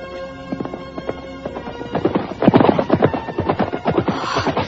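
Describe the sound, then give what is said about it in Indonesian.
Hoofbeats of a single horse: a steady run of many sharp clip-clop strikes that grow louder and denser partway through, over a constant low background hum. “Sepertinya aku mendengar derap seekor kuda.”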